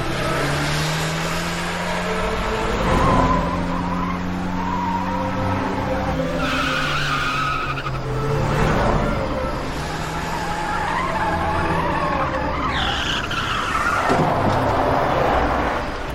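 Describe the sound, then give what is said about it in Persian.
A car skidding to a stop, its tyres screeching in long, wavering squeals over a rough engine and road roar, with several drawn-out screeches in a row, loud throughout. “ماشین رو متوقف میکنه، پیاده میشه.”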